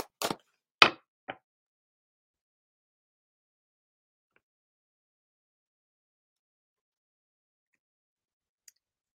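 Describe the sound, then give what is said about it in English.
Tarot card pulled from a deck: a few sharp snaps and flicks in quick succession, then a long silence broken by one faint tick near the end. “I feel called to pull another card here. Hold on.”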